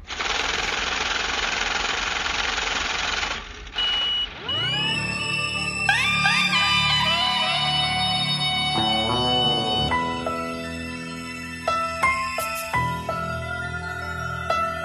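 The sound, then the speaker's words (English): A money counting machine whirs in a rapid, fluttering rattle for a few seconds. It cuts off, and bright electronic tones with sliding pitches follow. “only thing I hear is the money machine”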